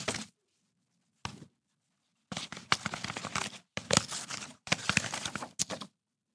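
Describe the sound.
Paper envelope being torn open at an awards announcement: two short rips, then longer bursts of crisp, crackling tearing, all fairly quiet with no voices.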